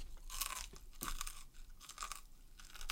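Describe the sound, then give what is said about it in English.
Open-mouthed chewing of food: a run of wet, crunchy bites and smacks repeating irregularly, fairly faint, with no talk over it. “Can you close your mouth while you're chewing?”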